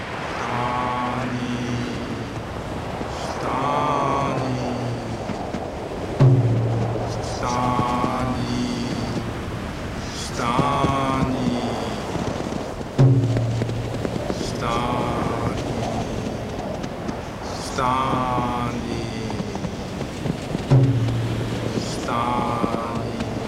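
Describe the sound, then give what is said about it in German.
Storm wind drives snow in a blizzard with a continuous howling, moaning roar that holds throughout, swelling in three sharp gusts at fairly even intervals. “der Sturm trieb ihnen die Schneewirbel entgegen, sodass sie kaum noch sehen konnten.”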